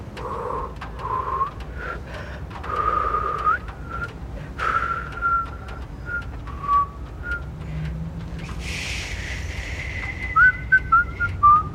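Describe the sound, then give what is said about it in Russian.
People whistling outside a club entrance at night: a series of short and held whistled notes, some gliding, later moving to a higher pitch with quick chirpy bursts, fairly loud with no talking. “Они свистят.”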